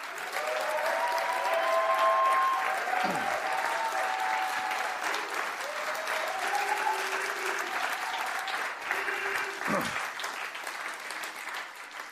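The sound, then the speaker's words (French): Church audience applauding and cheering the name of Jesus: a thick, continuous wash of clapping with raised voices over it, loudest early on and easing slightly toward the end. “on va acclamer fort, une fois de plus, le nom de Jésus.”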